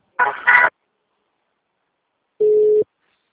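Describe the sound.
A telephone tone sounds while a call is being transferred: a brief buzzy burst, then after a silent pause a single steady mid-pitched beep.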